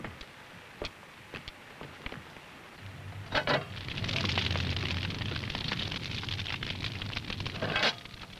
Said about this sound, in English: I'm going to bake some bread. I've already heated the oven and I've kneaded the dough. Now, you get over here and put these sticks on the fire.